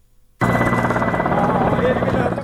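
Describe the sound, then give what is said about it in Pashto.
Loud, continuous rotor drone of military combat helicopters flying over an operation area in Marja, Afghanistan. It starts abruptly after a brief quiet moment and then holds steady and heavy to the end. “د بهرنیو ځواکونو د جنګي هلیکوپټرو تر څنګ ځینې نورې الوتکې هم په هوا کې ګرځي”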